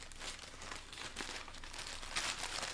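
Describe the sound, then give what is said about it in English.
A package being torn open by hand: a continuous rough crinkling and ripping of paper and plastic that runs steadily throughout, with a louder burst of tearing near the end and no talking. “I don't know where my knife is. So we're just going to tear into it.”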